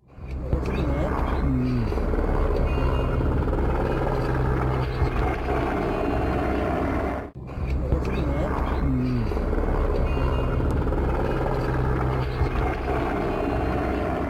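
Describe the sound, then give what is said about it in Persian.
Helicopters fly and set down briefly at the district centre in Nusay. A steady, loud, throbbing drone of rotors and engines continues throughout, with one brief break midway. “برخی چرخبال‌ها نیز برای مدت کوتاه در مرکز ولسوالی نوسای فرود آمدند. ویدئویی را که از محل به افغانستان اینترنشنال ارسال شده با هم ببینید.”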